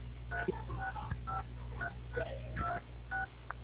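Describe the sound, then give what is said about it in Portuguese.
Telephone keypad tones from keys pressed during a call to a bank correspondent office: a quick series of short, clear beeping tones of varying pitch, heard thinly over the phone line with a low background hum. “a senhora está teclando o telefone”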